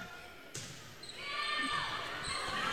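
A volleyball serve struck during a competitive match lands as one sharp, hollow smack, then crowd noise swells and holds at a steady, moderate level.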